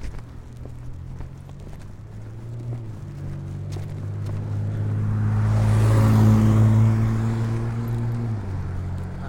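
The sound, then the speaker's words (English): A car approaching along a boulevard near a demolition site, its engine and tyre noise swelling to a peak and then easing slightly over a steady low street rumble. “Here comes a car.”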